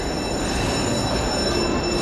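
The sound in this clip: A train at Gare du Nord station gives a steady, loud rolling rumble that fills the whole clip, with a thin high metallic whine of wheels running over it and no voices.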